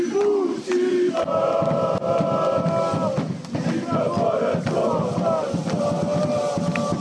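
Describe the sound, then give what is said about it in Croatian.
A large crowd of football fans welcomes their club's newly crowned champions home late at night, with loud, continuous, dense cheering and chanting that holds steady throughout. “Nakon povratka iz Sarajeva, fudbalere i stručni štab kasno noćas dočekao je veliki broj navijača.”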